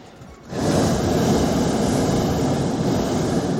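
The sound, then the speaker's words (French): A hot air balloon burner fires as the balloon comes down near treetops to land. After a brief quiet moment, one loud, steady roar starts abruptly and holds without breaks. “le pilote donne des petits coups de brûleur pour freiner sa vitesse”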